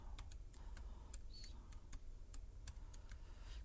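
An email address is typed on a computer keyboard, many quick, faint key clicks tapping in an uneven rhythm over low background hiss.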